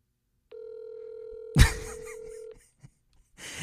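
A telephone ringback tone plays as a call rings through to voicemail: one steady, mid-pitched tone lasting about two seconds, with a sharp thump partway through and a brief burst of noise at the end.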